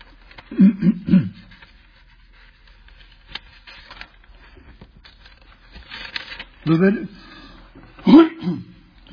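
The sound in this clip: Throat clearing from someone with something stuck in the throat while reading scripture aloud. A few short, gruff clusters of bursts are separated by long stretches of near quiet.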